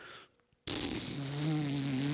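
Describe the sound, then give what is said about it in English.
Lips buzz into a cornet mouthpiece, bursting in after a brief near-silent moment as a loud, steady, low buzzing tone rich in harmonics that holds to the end. “to make a sound come through a brass instrument, you blow into the mouthpiece and you buzz your lips,”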